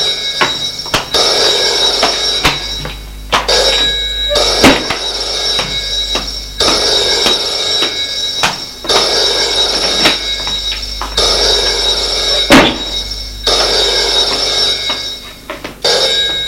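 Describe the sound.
An old-style telephone bell rings in an office. The ringing is loud and repeats in long bursts with short gaps between them, and no voices are heard.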